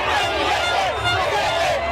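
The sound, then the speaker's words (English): Crowds cheer in the streets of Buenos Aires for newly elected president Javier Milei, a continuous loud roar of many voices with shouts and rising chant-like calls throughout. “Cheering in the streets of Buenos Aires for Javier Milei, who's drawn comparisons to Donald Trump.”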